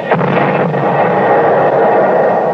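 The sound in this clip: Dense, continuous roar of artillery fire and shell bursts in a battle, loud and steady throughout with no single blast standing out.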